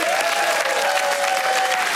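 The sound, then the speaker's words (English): Audience applause welcoming a guest to a chair on a show set: dense, steady clapping from many hands that holds at an even, fairly loud level for about two seconds. “Give it up, everyone, for Georgie.”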